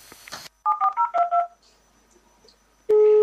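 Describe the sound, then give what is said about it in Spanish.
Telephone dialing tones from a landline: five short, evenly spaced keypad beeps in quick succession, then a quiet gap before a loud, steady tone sets in. “luego cogí desde el mío, desde el fijo, y llamé y esto es lo que pasó”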